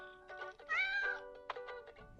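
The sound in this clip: Cat meowing in an online cat video: a few drawn-out, strained meows, one long and wavering in the middle, followed by shorter calls, fairly loud and without talk.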